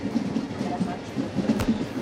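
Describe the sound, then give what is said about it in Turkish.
Train travelling on rails through African landscapes: a steady broad rumble with faint rhythmic low clatter running throughout. “Harika Afrika manzaralarıyla tren yolculuğu devam ediyor.”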